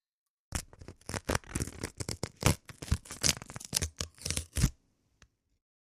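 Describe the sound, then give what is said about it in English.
A paper envelope holding a check ripped open by hand: many crisp, close tearing bursts in quick irregular succession, then quiet apart from one faint tap. “some check ripping SMR.”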